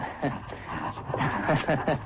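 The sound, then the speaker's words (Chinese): A dog gives a few short, high whimpering yips in quick succession, mixed in with speaking voices. “对不起，那条狗。”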